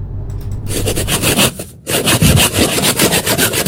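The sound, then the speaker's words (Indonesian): Bamboo being sawn by hand: many rhythmic rasping strokes in a steady back-and-forth pattern, broken by one brief pause before the sawing resumes just as loudly. “Ini adalah ilustrasi bambu yang dipotong kemudian diruncingkan ujungnya.”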